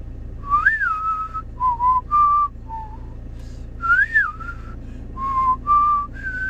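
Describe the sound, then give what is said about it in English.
Someone whistles a cowboy tune in clear, bright melodic phrases. Short sustained notes and quick upward flicks are separated by brief pauses, and the whistle is heard alone without talk. “I'm whistling a cowboy tune there”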